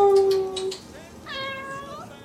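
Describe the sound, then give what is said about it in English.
A house cat meowing on Christmas Eve in clear, wavering mid-pitched calls, moderately loud, with no talk over it. “We've got cats.”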